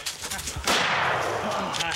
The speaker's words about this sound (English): You shot over the top.